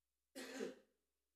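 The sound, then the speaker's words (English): A single short throat clear, a rough burst of about half a second, heard alone against silence. “Excuse me, let me clear my throat.”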